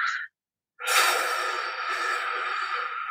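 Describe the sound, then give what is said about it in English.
A short breath drawn in through the nose, then after a brief pause a long, deep, airy exhale blown out through the mouth that holds steady to the end. “So we're just going to breathe in through our nose for a count of four and take a deep breath in. And then you're going to blow it out through your mouth”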